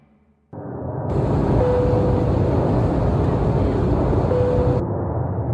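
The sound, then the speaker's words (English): Airliner cabin noise during descent into Byron Ballina Gateway Airport: a steady, broad engine roar starts abruptly after a brief quiet moment and then holds at an even level. “This is your captain speaking. We've commenced our descent into Byron Ballina Gateway Airport.”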